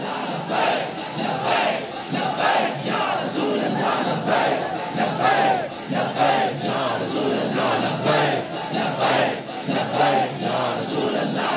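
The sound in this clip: A large crowd chants a religious slogan (naara), many voices shouting together in loud rhythmic bursts that repeat steadily without pause.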